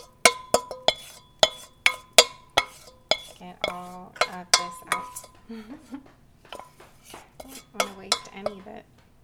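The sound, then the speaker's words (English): A spoon clinks repeatedly against a glass as a drink with blueberry simple syrup is stirred: many bright, sharp ringing taps in a quick, uneven rhythm. “Give it a stir.”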